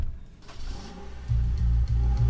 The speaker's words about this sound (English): All right, so what should we do? Let's go drive around for a minute.